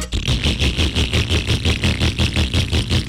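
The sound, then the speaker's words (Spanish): A motorcycle engine running badly, idling with a rough, sputtering beat. Many rapid, evenly spaced pulses continue at steady loudness throughout, with no voices. “Si su moto suena así...”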